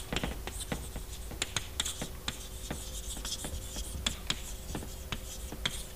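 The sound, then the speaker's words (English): Chalk writes on a blackboard during a mathematics lecture. Many quick scratchy strokes and taps run steadily throughout over a low, constant hum. “Maybe I'll write this on the blackboard.”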